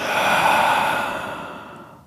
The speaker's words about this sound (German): Atme tief durch die Nase ein, durch den Mund aus,